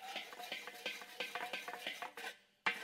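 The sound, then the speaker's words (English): A spoon stirs a pot of contents that settle to the bottom if left unstirred, producing many quick, rhythmic scraping and clinking strokes. The faint strokes stop for a brief pause before one final louder clank. “Stuff settles to the bottom if you don't stir it.”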